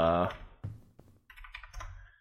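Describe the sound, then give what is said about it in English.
Typing on a computer keyboard: scattered clicks and a quicker run of key taps, with a person talking briefly at the start. “Like, sorry for the keyboard. I had to look that up.”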